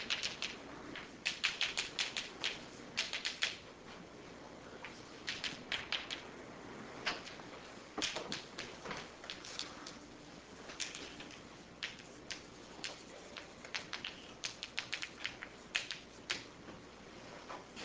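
Equations being written out during a physics lecture, heard as many faint short taps and scratches in irregular clusters, with quiet gaps between bursts.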